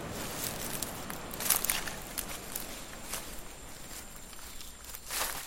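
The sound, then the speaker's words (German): Footsteps walk away from the Pacific shore into dense primary rainforest: a faint, steady series of soft steps mixed with light rustling, continuing throughout at an even pace. “Wir wenden uns vom Pazifik ab und dem Dschungel zu und gehen los.”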